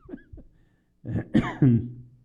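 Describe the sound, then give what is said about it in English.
Coughing and throat clearing from one person: two short, soft coughs, then a louder, harsher run of several voiced coughs that rasp and rumble. “excuse me, I don't have a cough button, but that's why I still have a cough.”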